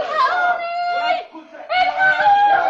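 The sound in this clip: A woman screams in Egypt amid riots and looting during a revolt against occupation, two high, sustained, strained cries separated by a short dip in loudness.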